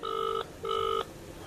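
A telephone rings while someone calls back. Two short, bright electronic ring bursts with a brief gap between them sound alone, with no voices.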